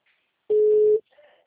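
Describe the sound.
A single steady telephone tone sounds after a dropped phone call. It is a clear mid-pitched beep of about half a second, followed by faint, brief murmuring.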